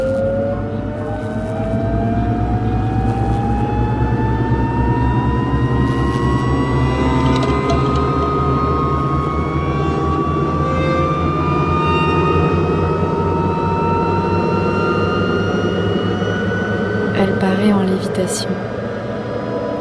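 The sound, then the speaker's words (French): A greenhouse slowly taking off, heard as a loud continuous mechanical drone with several steady tones gliding gradually upward in pitch, sustained without pause throughout. “3, 2, 1. La serre décolle très lentement.”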